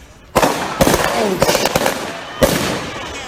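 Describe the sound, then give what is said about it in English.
Police gunfire aimed at a man on a balcony, several loud sharp cracks spaced unevenly across the moment, each burst cutting through a noisy background. “He was shot twice. Once in the shoulder, once in the hip.”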